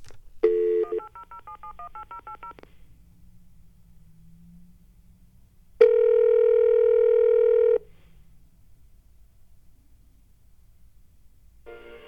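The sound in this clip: Touch-tone beeps of a toll-free telephone number being dialed: a quick run of electronic tones, then after a quiet pause a long, steady, loud tone, and the start of another at the very end.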